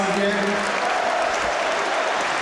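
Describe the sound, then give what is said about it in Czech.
Stadium crowd applauds captain Vladimír Darida as he leaves the pitch during a football match. Thick, steady clapping fills the stretch, with a man's voice talking over it. “Kapitán Vladimír Darida také si teď může poslechnout výrazný potlesk za svůj výkon.”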